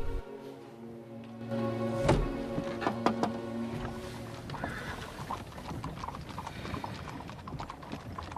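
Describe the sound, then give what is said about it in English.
Horses' hooves clip-clop as a carriage is brought to a halt beside another waiting carriage. Faint knocking hoofbeats come with the rattle and creak of the carriage's mechanism. “from the carriage window as the horses are brought to a halt next to another carriage, which is waiting.”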